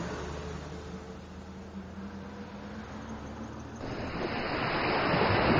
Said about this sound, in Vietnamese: Tiện tay ném điện thoại từ bên tai vào trong nước biển cuộn sóng. Hai mắt Lãnh Phong hiếp lại, ngắm nhìn biển rộng xa xa.